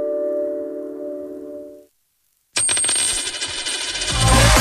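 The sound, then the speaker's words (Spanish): A one-euro coin drops with a bright metallic clatter and ringing. It follows a steady low tone that fades into a brief silence, and the coin's sound stays loud to the end. “¿Lo oyes? Es un euro que cunde.”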